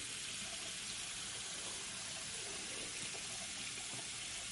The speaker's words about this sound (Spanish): Kate pone las manos bajo el grifo